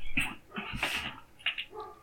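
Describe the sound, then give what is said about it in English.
Dogs barking at home, a few short, sharp barks and yelps in separate bursts, fairly faint, with gaps of quiet between them. “Also, I apologize for my dogs barking.”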